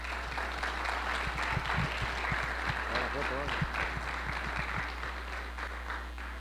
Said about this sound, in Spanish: muy agradecido por su presencia y esos aplausos también.